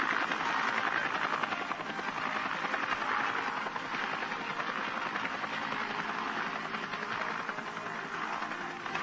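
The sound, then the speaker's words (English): Huey helicopters landing troops at a landing zone make a continuous droning rotor and engine roar. The steady, rhythmic thudding stays even throughout, with no voices. “Moore's were the first boots on the ground as the 16 Air Cav Hueys delivered 2 platoons of his B Company to the landing zone.”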